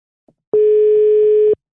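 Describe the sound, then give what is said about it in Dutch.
A telephone ring tone heard while calling someone: a single loud, steady electronic tone lasting about a second, preceded by a faint click. “Laten we Aldo ook even bellen. Ja, eens kijken of die ook opneemt.”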